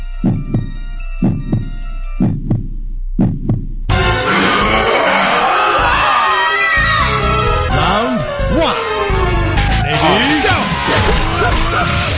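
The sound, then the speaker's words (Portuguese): King of Fighters '97 fighting game audio of Iori in Orochi mode: a few deep, throbbing heartbeat-like pulses, then a loud burst of game effects with growling yells over dense rumbling. “Yori chama Orochi. E o cara é nervoso. King of Fighter acho 97 fez isso. Modo Orochi, modo endemoniado.”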